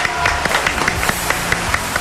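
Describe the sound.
Scattered claps from a small audience greeting a special guest: separate, sharp hand claps in a loose, uneven rhythm over a low background, never building into full applause.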